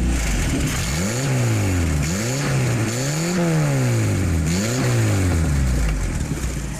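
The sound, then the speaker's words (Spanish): R8 sports car accelerating and driving, its exhaust note a loud, continuous engine roar whose pitch repeatedly climbs and drops back as it revs through several surges. “Entonces esta aceleración del R8 y también andando, es un ruido muy característico. Esto lo otorga la marmita del escape con sus características y los escapes”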